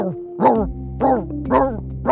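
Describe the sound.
A voice actor imitates a singing dog, giving four short, yowling bark-like notes in an even rhythm.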